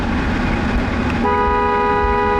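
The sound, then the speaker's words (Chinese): Car horns honking as vehicles pass a revolutionary martyrs' cemetery in Dongfeng, a sustained steady horn tone with stacked harmonics starting about halfway through over continuous traffic noise, no talk. “所有经过东风革命烈士陵园的车辆都会鸣笛，表达对长眠于此的英烈们的深深敬意。”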